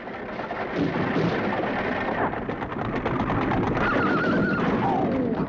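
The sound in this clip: A horse-drawn carriage races across open wasteland: a dense, steady rumble of hooves and rolling wheels runs throughout, with a short horse whinny rising out of it near the end.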